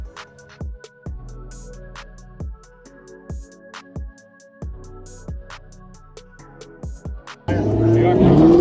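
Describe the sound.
A NASCAR race car runs laps at the Busch Light Clash, an exhibition race on the track inside the Los Angeles Memorial Coliseum. A loud engine roar bursts in for the final second, following a stretch of rhythmic, regularly spaced thumps.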